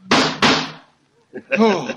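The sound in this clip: Two loud gunshots from a revolver crack in quick succession, each with a short ringing decay, followed after a brief pause by someone speaking.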